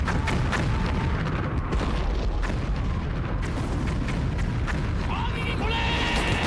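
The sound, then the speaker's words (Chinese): Cannon artillery fire in a wartime audio drama, heavy rumbling booms that blur into a dense, continuous roar with no clear gaps, loud throughout. “不好，鬼子有大炮了”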